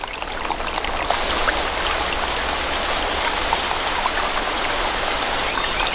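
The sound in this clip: A rainforest stream, swollen by rising water, babbles with a steady, full rush and trickle of water and faint scattered drips throughout; no voices.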